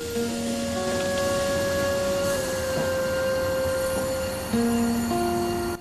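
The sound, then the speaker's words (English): A diesel train slowly pulls into a station with a steady, heavy rumble and sustained tonal whining lines held throughout, growing somewhat louder and shifting in tone near the end. “A diesel train slowly pulls into a station.”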